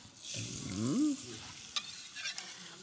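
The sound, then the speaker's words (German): An onion frying in rapeseed oil: a quiet, steady sizzle of hot oil with soft scraping and a few brief clicks from stirring, with no talk over it. “Dann habe ich hier etwas Pflanzenöl. Ja. Ja. Das ist ein Rapsöl. Und da lassen wir jetzt unsere Zwiebel schön Farbe nehmen.”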